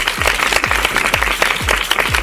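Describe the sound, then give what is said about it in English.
A round of applause: dense, continuous clapping with regular low thumps running underneath. “if you did the actions at home, give yourselves a great big round of applause.”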